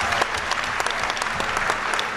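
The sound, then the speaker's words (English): Audience applause: dense, steady clapping from a crowd that holds at an even loudness for the whole two seconds, with no clear voices over it. “I think you should give him a round of applause.”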